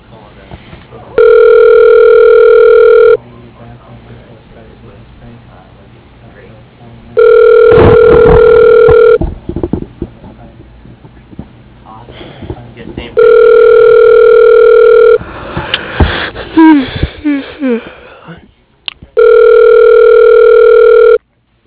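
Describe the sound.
A telephone line rings while a call is transferred: four steady, two-second electronic ring tones at even intervals, with quieter muffled sounds filling the gaps between them.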